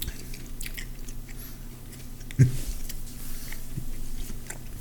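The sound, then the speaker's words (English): Biting into a Burger King chicken burger gives one distinct, soft crunching bite amid faint, low background noise. “I'm going to eat it. Yeah. Well, the bun tastes like a bun, thank God. Yeah, no added flavor. It's just a Burger King burger with chicken.”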